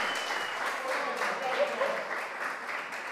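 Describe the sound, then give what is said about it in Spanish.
Applause rises from an audience at a radio stage show. Many hands clap in a dense, even patter at a moderate level, sustained for about three seconds. “Fuertes aplausos para la macanuda en el aire de Radionauta 106.3”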